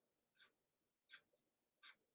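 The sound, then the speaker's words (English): A pencil writes the letter D during a handwriting tracing lesson, making four short, faint, scratchy strokes, the second and third close together, with quiet pauses in between and no talk. “A, B, C, D. Write the letter D.”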